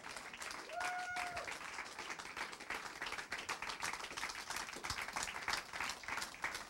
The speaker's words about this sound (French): Acclame Dieu pour toi-même.